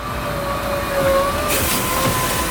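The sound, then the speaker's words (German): Ice resurfacing machine driving across the rink at an ice hockey academy: a steady, loud engine rumble with a thin sustained whine on top, continuous throughout without breaks. “Da fährt er jetzt dahin, der Eismeister in der Eishockey-Akademie in Liefering.”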